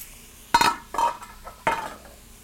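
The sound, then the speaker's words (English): Snow peas tossed into a stir-fry pan, heard as three main bursts of sharp clattering and rattling against the metal, with a smaller clink between them and quiet gaps in between. “Snow peas are going in.”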